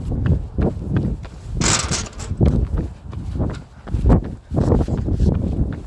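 Footsteps during a 30-minute jog: a steady run of soft thudding strides in an even, quick rhythm, many in a row, fairly loud with no talk.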